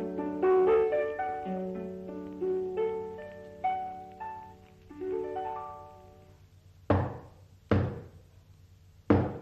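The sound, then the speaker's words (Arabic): Three sharp knocks on a door ring out after a stretch of music in an Arabic radio drama of the Thousand and One Nights tale of Dalila the Wily and Ali Zaybaq; the loud raps are spaced apart and stand alone. “خبطت علي. افتح يا حبيشة.”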